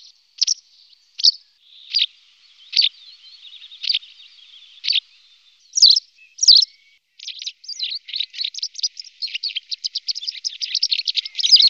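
Calls of a common countryside bird: a series of spaced, high, sharp chirps, then a quicker run of many closely packed notes, clear and fairly loud with no talk.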